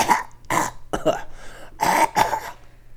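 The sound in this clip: Throat clearing from a tickle in the back of the throat: five rough, harsh bursts, three close together, then a short pause and two more.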